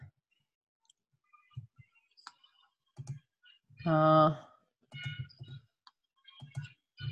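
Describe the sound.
Computer mouse clicking during an online session. Faint, sharp clicks come scattered in small clusters, and a brief burst of voice cuts in midway.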